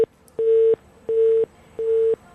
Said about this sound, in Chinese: 还有一个廉政举报的电话，这是盲音吧？